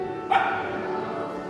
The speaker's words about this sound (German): Hi, oh, Sie haben einen Hund dabei, den sehe ich gerade.